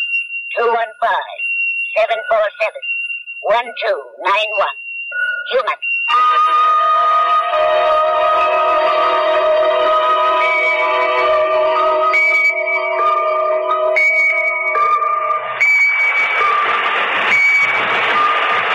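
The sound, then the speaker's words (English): Electronic alarm from a pocket alarm watch going off. A dense, loud, multi-tone sustained blare holds steady for many seconds, preceded by a short stretch of voices. “What the hell is that noise? Oh, sorry. I've got a pocket alarm watch, and it keeps trying to tell me something.”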